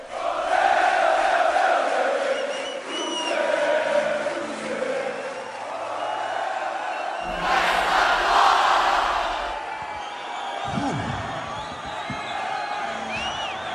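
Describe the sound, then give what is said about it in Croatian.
Massed voices of a concert audience singing together at a show in São Paulo in 1999, a loud, continuous crowd sound that swells midway and carries on without a break. “A mi smo na koncertu Brucea Dickinsona. Sao Paulo, godina 99. Publika peva, uskoro će zapevati i Bruce Bruce.”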